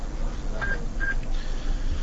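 Telephone signalling tones sound as two short, clear beeps in quick succession, followed by a fainter third, over a low, muffled background hiss.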